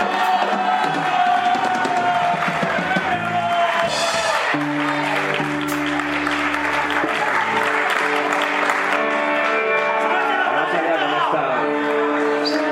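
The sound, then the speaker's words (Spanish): Loud, steady applause from a party crowd at a fifteenth-anniversary celebration, welcoming a performer. Sustained musical tones sound beneath the clapping throughout. “Fuerte, fuerte el aplauso para Daniel Rabanaque.”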